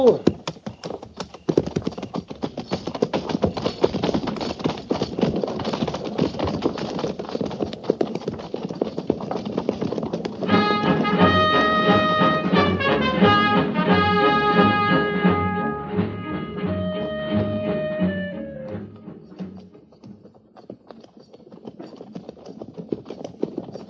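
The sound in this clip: Clip-clop of cavalry horses setting off at a walk in pairs, a steady dense patter of many hoof beats throughout, with sustained brass-like musical tones rising over the hooves through the middle before the hooves carry on alone.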